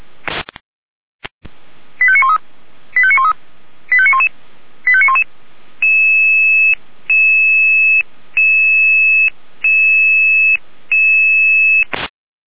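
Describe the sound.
Electronic alarm tones for an air rescue dispatch: four short warbling tone bursts, then five longer, steady two-pitch beeps separated by brief gaps, loud and alone.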